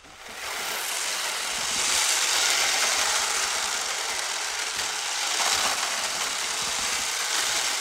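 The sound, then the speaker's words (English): A wooden theatre rain machine, an 18th-century revolving wooden wheel, gives a dense, continuous hissing patter like steady rain, loud and unbroken throughout with slight swells in level. “And there's another thing, which is a rain machine. Actually, just make it work and then I'll describe it.”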